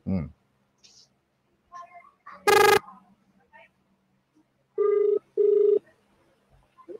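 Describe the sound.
A telephone rings while a call is placed on a call-in radio show, with one loud tone burst followed later by two evenly spaced ring pulses and brief fragments of voice between them.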